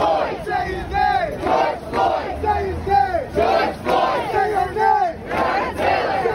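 Protest crowd chanting and shouting in New York during summer unrest. Loud, many-voiced bursts rise and fall in a repeated chant rhythm, with raw yelling in between.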